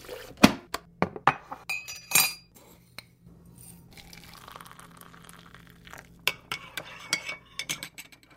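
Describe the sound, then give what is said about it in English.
Coffee shop clatter of dishes and cutlery: many sharp, bright clinks of spoons, cups and plates ring out in irregular bursts, with a quieter stretch of soft stirring and low murmur in the middle before the clinking picks up again. “But now my coffee shops tend to sound like...”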